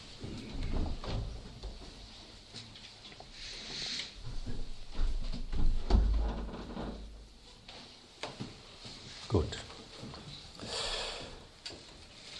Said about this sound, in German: Ja, wir können die Fenster wieder schließen.